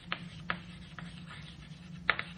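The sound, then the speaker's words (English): Faint scratching and tapping strokes of an equation for gravitational redshift being written by hand, with a few sharper ticks at irregular intervals over a quiet low hum. “So, this is the gravitational redshift. I'll just write it down.”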